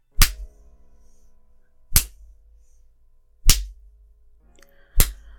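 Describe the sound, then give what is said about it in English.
Four sharp smacks of a paddle striking bare buttocks, evenly spaced and loud, each a crisp crack that dies away quickly, with near silence between them. “you get to feel the paddle even more. The way your ass jiggles. The sound when I hit it.”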